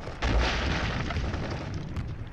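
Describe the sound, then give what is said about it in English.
Gunfire in brush, a loud burst starting just after the opening, followed by sustained rough, rumbling noise with a sharper crack near the end. “Men shoot in the brush.”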